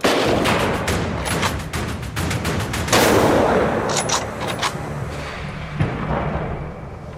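Hunters fire a rapid series of gunshots at wild boar during a hunt, shooting from their fixed posts. Many sharp reports crowd together in a dense, continuous volley, with a few stronger blasts standing out.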